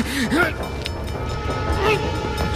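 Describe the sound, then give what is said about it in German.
A train approaching a station platform: a continuous rail rumble with brief, wavering horn-like whistle tones. “Dann bemerkte er den herannahenden Zug.”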